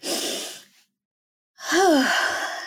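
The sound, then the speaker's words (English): A deep breath taken during a conversation: an airy breath, then a brief pause, then a longer, voiced, sighing exhale with a short rise and fall in pitch. “should we take a deep breath and go to rapid fire?”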